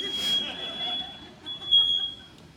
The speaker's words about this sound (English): I don't really know what's happening. The alarms are going off.